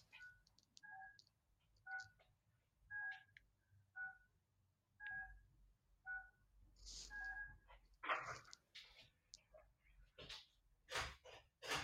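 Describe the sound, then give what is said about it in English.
A pet dog gives a few sharp, noisy snorting bursts toward the end, after a run of evenly spaced two-tone telephone keypad beeps; all fairly faint. “So that's my dog.”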